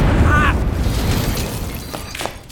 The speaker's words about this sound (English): Flashbang!